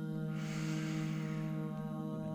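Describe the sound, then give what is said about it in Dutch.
A deep, airy breath taken during a guided hypnosis breathing exercise swells and then fades over a steady, sustained droning music bed. “Wanneer we samen in en uitademen. Diep in”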